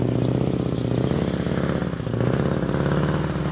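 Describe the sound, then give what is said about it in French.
Loud, steady engine roar and track rumble from Norwegian army armoured tracked vehicles of about 25 tonnes, a platoon of four, driving through thick snow on the Rena training ground north of Oslo, droning continuously without a break. “Sur le champ de manœuvre de Rena, à une centaine de kilomètres au nord d'Oslo, les blindés de l'armée norvégienne semblent surfer sur l'épais manteau blanc.”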